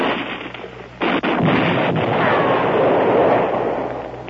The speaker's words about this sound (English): Grenade, Lieutenant. Grenade.